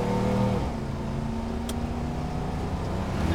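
A car engine as driving begins: a steady droning hum whose tone drops early on, then holds level and fairly loud for the rest of the stretch.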